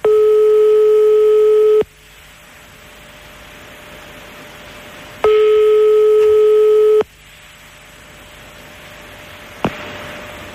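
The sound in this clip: Telephone ringback tone on a call placed to someone's home: two long, steady, loud tones separated by a hiss-filled pause, followed by a click near the end.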